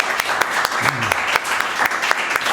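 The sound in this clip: A small group applauds at a wine tasting, with loud, irregular claps forming a dense patter throughout and a voice heard briefly over the clapping.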